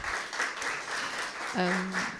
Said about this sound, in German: Einen kleinen Applaus.